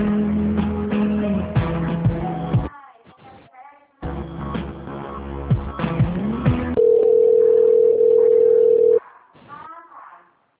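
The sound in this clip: A telephone line during a call transfer, heard through a narrow phone band: music-like tones with brief voices between them, then a steady single tone holding for about two seconds before it cuts off.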